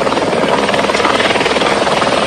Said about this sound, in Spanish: La tarde de este miércoles se unió un helicóptero cisterna de Quito, de aeropolicial, que se abastece del lago San Pablo y arroja agua en las faldas del Cotacachi.